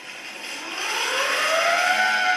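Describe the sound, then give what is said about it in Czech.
An old bicycle siren gives a whining tone that slowly rises in pitch and grows steadily louder over about two and a half seconds, heard alone. “Pak je tady siréna nebo sirénka, tak někdo říká.”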